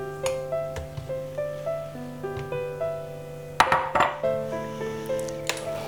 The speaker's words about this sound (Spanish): Y termino de mezclar. Ya está.